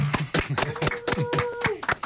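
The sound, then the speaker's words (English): Clapping from a small group in a radio studio, greeting first-time guests: a few hands striking in a quick, fairly even rhythm, with voices sounding through the claps. “I think we need a round of applause.”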